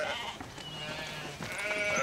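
Sheep bleating, with several wavering, nasal bleats overlapping one another at a fairly steady loudness.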